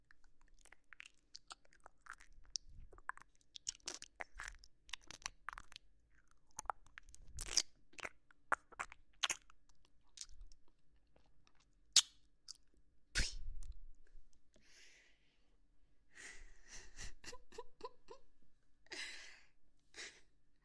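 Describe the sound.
Food is crunched and chewed in many irregular, crisp bites with soft pauses between, quiet and close, with no talking.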